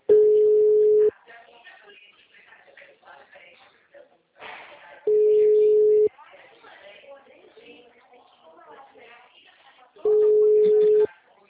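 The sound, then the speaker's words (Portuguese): Telephone busy tone after a dropped call: three steady, mid-pitched tones, each about a second long and spaced roughly five seconds apart, with a person talking in the gaps between them. “a ligação caiu? Tá ruim a ligação aqui.”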